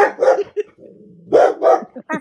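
A dog barks loudly in a few short, sharp yaps mixed with a higher whining yip, in an uneven rhythm with brief gaps.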